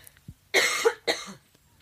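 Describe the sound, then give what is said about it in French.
Two harsh coughs from a person come in quick succession: a longer, louder first cough and then a shorter second one, set against near silence. “Je vais tousser.”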